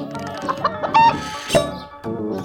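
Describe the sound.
A black-and-white speckled hen clucks in several quick, fairly loud calls of varying pitch, with sharper squawks near the middle and no talk over it.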